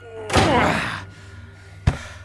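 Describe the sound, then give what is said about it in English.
A door slammed shut in a cave hideout: a brief burst of rushing, scraping noise, then after a pause one sharp, heavy, low thud near the end. “Quick, through this door. This place. Help me with this door.”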